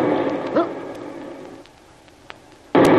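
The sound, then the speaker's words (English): A torpedo explosion hitting a ship bursts in suddenly and loudly near the end, a dense roaring blast that follows a stretch of steady low rumbling noise. “That was a torpedo. Stand by. We may have to abandon ship.”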